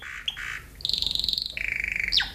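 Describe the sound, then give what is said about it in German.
A pet bird calls close to a microphone: a couple of short squawks, then two runs of rapid, high warbling trills, closing on a sharp falling squawk. No voices are heard. “Jetzt gucke ich mal, kann der Vogel mal hier vorne ans Mikrofon kommen?”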